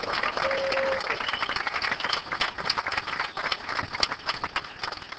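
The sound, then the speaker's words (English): An audience applauds a newly promoted National Sales Director at a convention, a dense, steady and loud wash of clapping that keeps going throughout. “Would you please stand, Deborah? Give her a hand.”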